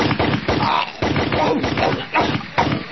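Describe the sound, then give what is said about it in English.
Rapid gunshots ring out in a dense, nonstop volley of sharp cracks for about three seconds. The volley stays loud and even, with a few heavier bursts standing out. “but this time I'm dying from gunshots.”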